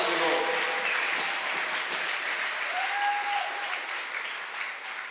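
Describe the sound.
An audience applauding to acclaim the Lord at a worship gathering. Dense, even clapping holds steady at full strength for the whole stretch and eases slightly at the very end.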